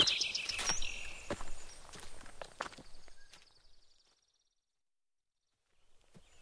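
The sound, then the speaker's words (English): Footsteps of people walking north with a compass while searching for a flag: a run of irregular steps for about three seconds that fade out, followed by near silence. “Right. Let's try and find this flag first. We just have to walk north for 1 kilometre.”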